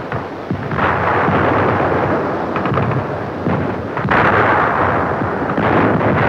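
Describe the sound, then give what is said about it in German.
Heavy artillery fire pounding a landing bridgehead from all sides in wartime: a loud, dense, continuous roar of rumbling blasts with a sharp surge partway through, and no voices. “Unsere Artillerie belegt den Landekopf von allen Seiten mit starkem Feuer.”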